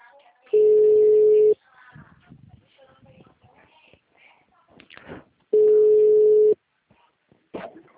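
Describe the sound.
A telephone tone sounds after a dropped phone call: two long, steady, mid-pitched beeps about a second each, with people talking in the gaps between them.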